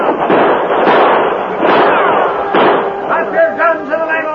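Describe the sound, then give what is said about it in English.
Gunfire in a shootout as men charge up a ship's gangplank. Many sharp, loud shots crack in rapid, uneven bursts throughout. “Then bullets began to fly from another direction.”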